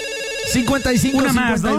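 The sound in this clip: Telephone ringtone for an incoming call: a loud, warbling electronic melody of repeated rising and falling tones that begins partway in and carries through to the end.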